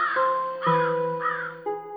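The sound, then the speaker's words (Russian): Crows cawing in a few harsh, buzzy calls at a steady pace, loud and clear over a sustained tonal background. “Лежит Иван-царевич мертвый. Над ним уже вороны слетают.”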